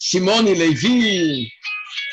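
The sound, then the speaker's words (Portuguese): A telephone rings with short, high electronic tones right after a man's voice stops, clear and alone at the end. “Deixa eu desligar aqui o telefone.”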